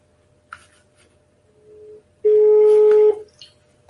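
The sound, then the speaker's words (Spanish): Telephone dialing a call: a brief click, a faint short tone, then a loud steady electronic tone held for just under a second before it stops. “Voy a llamar. A ver si lo localizamos. Vamos a llamarlo.”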